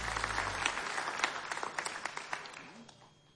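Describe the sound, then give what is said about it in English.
Audience applause at a live music show at Mount Sage, many quick, sharp claps in a fairly quiet, thinning patter that fades toward the end. “Give it up for the folks here at Mount Sage.”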